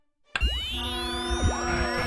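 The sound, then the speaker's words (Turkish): A radio cutting out as its battery dies while playing a football match: wobbling electronic tones sweep up and down in springy, boing-like warbles over a low hum, with no voices. “Aa, radyonun pili bitti sanırım.”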